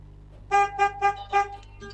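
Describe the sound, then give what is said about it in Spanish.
Four short car horn honks sound in a quick, slightly uneven series, each a bright, buzzy tone, with a fainter toot trailing after them. “¿Querés que te toque bocina?”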